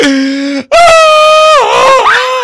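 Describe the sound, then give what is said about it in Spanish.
A man wailing in mock crying, his voice imitating sobbing with long, loud, drawn-out moaning wails broken by one short gap, the pitch dipping and wavering near the end. “Uy, que lloro porque mi sueño no se hace realidad en ese sentido. Permítame llorar otra vez.”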